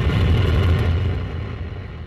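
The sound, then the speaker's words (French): Soyuz rocket lifting off from Kourou, French Guiana, carrying the Gaia satellite: a broad, deep roaring rumble that holds steady, then slowly fades and thins, with no voices. “Retour aujourd'hui près de 10 ans en arrière, au moment du lancement du satellite dans une fusée Soyouz depuis le centre spatial de Kourou en Guyane. C'est notre archive du jour. 3, 2, 1, top, décollage.”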